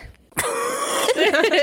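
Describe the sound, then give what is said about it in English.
A voice imitating a man's low whimper, starting with a short breath and becoming a drawn-out, throaty moan with a wavering pitch that breaks into a few quick catches at the end. “A whimper so low, I almost miss it, comes out of his throat. A little whimper. He goes,”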